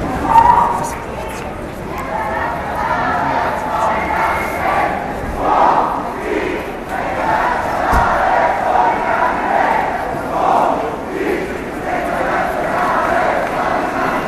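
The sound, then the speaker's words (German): Loud protest crowd, kettled by police and pushed into a side street, keeps up continuous shouting and chanting with overlapping voices and no pause. “Und so wurde die Menge eingekesselt und in eine Seitenstraße abgetrieben. Laut blieb sie aber trotzdem.”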